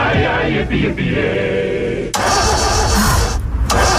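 A car engine cranks and turns over, a loud, continuous mechanical rumble that dips briefly about halfway through and then carries on just as strongly.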